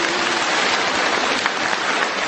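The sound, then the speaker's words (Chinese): Audience applause: a dense, steady wash of many hands clapping at an even, fairly loud level from start to end, with no voices. “鼓掌。”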